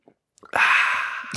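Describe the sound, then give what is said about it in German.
Freshly poured wheat beer is sipped with a sustained, hissy slurp of about a second, preceded by a few small lip and breath sounds and followed by a soft breath. “Ich werde jetzt zum allerersten Mal hier live in der Sendung, ich nehme mal einen Schluck,”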